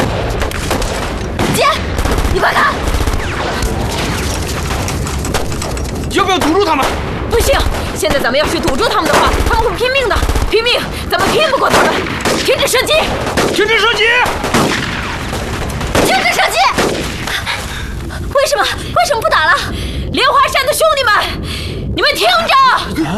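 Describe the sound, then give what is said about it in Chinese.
Gunfire in a battle: dense, loud volleys of shots and booms keep up almost without pause, with shouting voices mixed into the din. “停止射击！ 停止射击！ 为什么不打了？”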